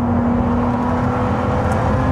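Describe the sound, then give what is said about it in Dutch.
A Ferrari 296 Speciale sports car is driving, giving a loud, continuous engine drone with a steady tonal hum through it. It stays alone and constant, with no talk. “Wouter test de Ferrari 296 Speciale.”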